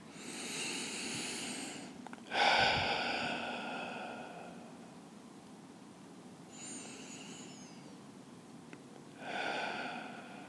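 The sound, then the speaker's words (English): Slow, deep breaths during a guided relaxation exercise, a few long airy inhales and exhales rising and falling in waves, soft and breathy with no talking. “let's take a few deeper than normal breaths.”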